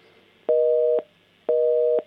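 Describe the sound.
Telephone busy signal after a dropped call: two identical steady electronic tone bursts, each about half a second long, separated by short silent gaps.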